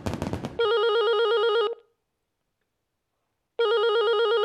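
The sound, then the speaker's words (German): A telephone rings for an incoming call with a steady electronic bell tone, two rings separated by a silent pause. A short burst of noise comes just before the first ring. “Herr Winker von der Deutschen Bank ruft nochmal zurück”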